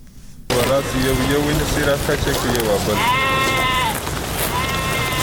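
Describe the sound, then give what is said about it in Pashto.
Sheep bleat in a village in the Pishin area, where sheep are slaughtered for traditional dried meat. Several wavering bleats rise over a steady background, with voices talking around them. “د پشین د سیمې له یو کلیوال سره خبرې کړې دي چې د لاندې پسونه حلالوي”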